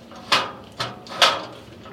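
A gate clunking and rattling as it is opened: three sharp, bright knocks roughly half a second apart, loud and on their own with no voices.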